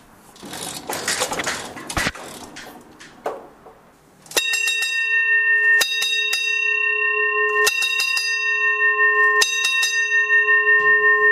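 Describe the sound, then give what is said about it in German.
A ship's engine-room telegraph bell in the engine room rings loud and shrill, a continuous high metallic jangle with repeated clusters of strikes, preceded by a few seconds of rough clattering noise. “Wir haben eben gehört, es gibt auf der Brücke den Maschinentelegraphen, wo der Kapitän seine Befehle gibt, wie die Maschine fahren soll. Jetzt haben wir den in der Maschine erreicht und jetzt hören wir mal den Originalton, wie das funktioniert.”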